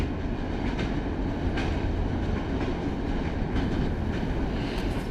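A train nearing a station rolls along with a steady, dense rumble and faint intermittent wheel clicks, loud and continuous throughout.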